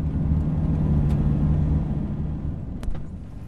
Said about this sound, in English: So we've just pulled over by the side of the road in Kirua, just round the corner from Priska's village.